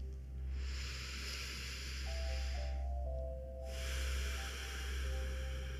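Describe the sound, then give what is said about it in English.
Someone smells flowers with long, deep breaths drawn in through the nose: two sustained airy hisses with a short pause between them, over a constant low background hum. “I take a deep breath and smell these flowers.”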